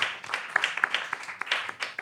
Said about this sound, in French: Je pense qu'on peut applaudir.